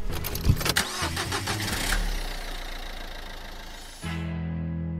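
A car engine cranks with a few rapid chugs, catches and revs loudly, then settles into a steady rumbling idle that shifts to a lower, smoother hum near the end.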